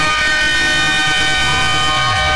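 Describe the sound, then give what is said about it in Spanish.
A whistle sound effect blasts as one loud, continuous, steady-pitched tone with rich harmonics, holding unbroken for the full two and a half seconds with no talk. “Le voy a tocar el pito.”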